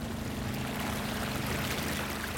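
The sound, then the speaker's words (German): A boat moves out on a river just after leaving a jetty, with a continuous rush of water over a steady, low engine hum, even and unbroken throughout. “jetzt sind wir hier vom Steg hier rausgefahren”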